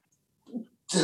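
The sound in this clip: A single sneeze bursts out sharply and loudly at the end, after a brief breathy build-up that rises just before it.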